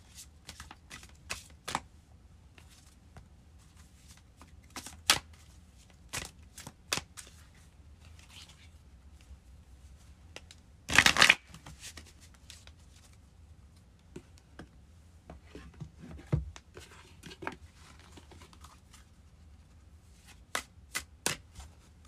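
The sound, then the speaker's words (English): Goddess guidance oracle cards being shuffled and drawn: quiet, scattered flicks and slides of cards, broken midway by one louder, dense riffle. “Okay, I'm gonna pull a goddess guidance oracle card.”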